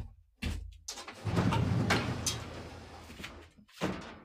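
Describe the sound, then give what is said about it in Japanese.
A sliding door is pulled shut: a dull knock opens, then a long rumbling slide of the door along its track, ending in another soft knock, fairly quiet overall. “ちょっと親入ってこないように戸を閉めなきゃ。”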